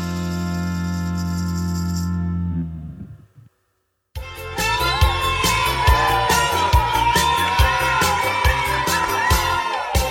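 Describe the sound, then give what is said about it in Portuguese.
A birthday song plays as background music: a sustained tonal passage fades into a brief silence, then a livelier, beat-driven section runs to the end. “Música de parabéns de fundo, gente. Sim, musiquinha de jabá diferente, né?”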